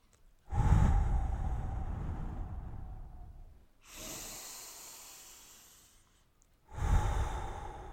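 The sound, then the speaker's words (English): Slow, deep human breathing during a guided breathing exercise: three long, airy breaths of a few seconds each, separated by short pauses. The breaths are soft and heard alone, with no talk. “Now focus on your exhale.”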